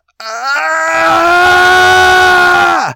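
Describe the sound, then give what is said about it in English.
A woman in labour lets out a loud, sustained yell-moan that holds a steady pitch for over two seconds and then drops sharply as it ends. “She closes her eyes, clenches her jaw, and several moments later lets out a loud yell slash moan. We have all heard it.”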